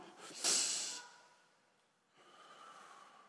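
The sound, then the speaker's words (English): A group of people take a deep breath and blow it out: a loud, breathy rush swells and slowly fades, then a softer second breath begins. “Take a deep breath in. Come on. Blow it out. Do it again.”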